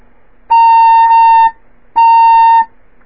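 A fife plays its low C sharp: two clear, steady high-pitched tones, each held for about a second, separated by a short silence, with a slight break partway through the first.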